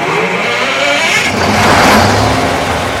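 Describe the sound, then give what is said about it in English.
A large diesel generator, the size of a semi-trailer and set behind a nursing home, runs with a loud, dense, steady engine roar that swells slightly midway and then holds. “Out back behind the DeLand nursing home, one of the directors fires up a generator the size of a semi-trailer.”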